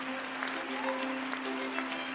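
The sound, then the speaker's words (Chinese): Crowd cheering and applauding at a celebration for a newly matched couple, with steady dense clapping throughout and faint voices mixed in. “大家呢，都非常高兴的为他们喝彩、敬酒和给予他们最真诚的祝福。”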